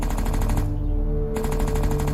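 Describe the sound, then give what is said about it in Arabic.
Rapid gunfire from a firearm, a loud, continuous stream of evenly spaced shots with no pause; the hiss above the shots briefly drops out partway through. “وفجأة دوى صوت سلاح ناري، سلاح من طراز مختلف تماما.”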